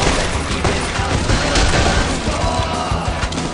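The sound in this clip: Rapid gunfire from a video game, a dense and loud barrage of overlapping shots that runs without a break for the whole clip, with crashes and booms mixed in.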